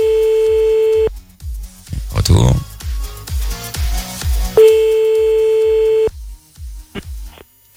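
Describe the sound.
A telephone call placed and met by a busy signal: a steady electronic tone sounds in two long stretches over a regular low pulsing, with clattery handling noise between them.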